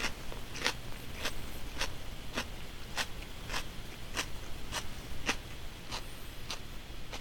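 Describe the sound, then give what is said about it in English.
Crisp crunching from a big bite into a small pepper, followed by chewing: many sharp crunches at even, steady intervals, faint and without talk. “This last pepper here. I know it's going to be at least a little bit spicy, and it's smaller than the other one. So I'm going to go for it. That wasn't a small bite.”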